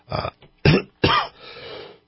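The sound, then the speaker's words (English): A person clears their throat because of a tickle, with a few harsh, raspy bursts followed by a softer, drawn-out rough exhale that trails off. “excuse me, got a tickle in my throat”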